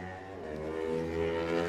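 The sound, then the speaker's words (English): A Ducati racing motorcycle, ridden by a French rider, sets off at the Isle of Man TT with a steady harmonic engine drone that builds slightly in loudness over its short run. “This is his 15th TT campaign for Gary Johnson, and he's away into his race. Then Jonathan Getschke, who had a top 20 this morning, the French rider on the Optomark Road Racing Ducati.”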